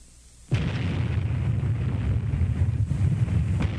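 An atomic bomb test explosion from a 1954 news report in Nevada: after a quiet start, a sudden loud blast hits, then a sustained, heavy low roaring rumble continues without letup to the end.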